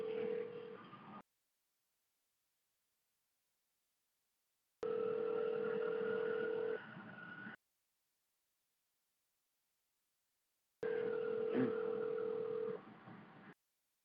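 Ringing of a call to a house phone, heard as three thin, phone-filtered ring bursts of about two seconds each, separated by silent gaps of several seconds.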